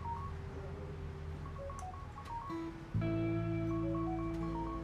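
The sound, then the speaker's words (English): A mobile phone ringing with an incoming call plays a melodic ringtone of short electronic beeping notes in a repeating pattern over steady background noise, growing louder and fuller partway through. “is that your phone or my phone?”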